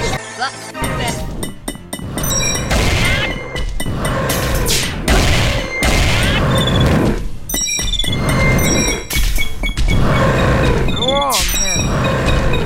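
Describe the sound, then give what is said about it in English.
Loud, dense blasts of a dragon breathing fire during a video game boss fight, several roaring bursts layered with clinks, crashes and booms of combat over a continuous rumble. “And he, of course, being a dragon, will breathe fire at you.”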